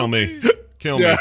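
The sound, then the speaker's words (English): A man imitates a hiccup in the middle of his speech. One short, sharp hiccup sound pops out between two stretches of talking. “Joking on my own hiccup there.”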